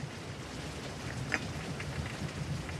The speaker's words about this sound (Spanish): Afuera, la lluvia que cae copiosamente resbala por los cristales